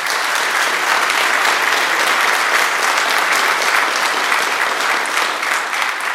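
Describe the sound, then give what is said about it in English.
A church audience applauds a visiting pastor and choir with loud, steady clapping that holds an even level for the whole stretch, with no voices above it. “Let's give them all a big round of applause for”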